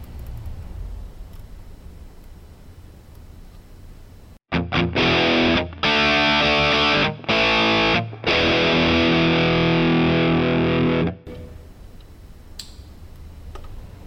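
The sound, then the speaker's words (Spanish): A heavily distorted electric guitar plays through a JM45 amp model with an impulse response cabinet, loud chords in bursts with brief gaps, after about four seconds of low hiss and before a quiet tail. “JM45. En este caso está sin impulso de respuestas. Ahora coloquemos una de las cabinas de impulso de respuestas.”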